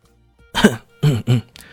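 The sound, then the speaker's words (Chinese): A light cough from a person, heard as three short, clipped throat-clearing bursts close together, the first one alone and the last two quickly back to back, with no talk around them. “他忍不住轻咳了一声”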